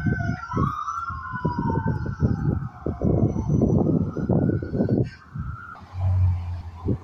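Police siren passing outside: a loud, sustained wailing tone sweeps in pitch over a rumbling background, with a brief low hum near the end.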